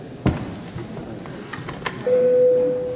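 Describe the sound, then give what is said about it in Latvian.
An electric bell sounds in a parliamentary chamber to call members to a vote: a low murmur of the room and a sharp knock, then a steady, sustained ringing tone begins and holds unbroken to the end. “Paldies, lūdzu zvanu.”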